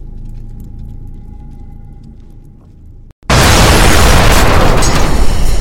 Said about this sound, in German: Treffer. Zweites Geschütz ausgeschaltet.